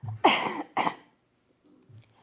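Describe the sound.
Two harsh coughs from a person with a post-infectious cough come in quick succession and fairly loud, followed by a faint, brief throaty sound.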